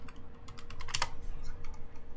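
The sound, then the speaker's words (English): Typing on a computer keyboard: a quick, irregular run of many light key clicks, with a brief denser burst near the middle and no talking. “I'll just type in Tweaktown then.”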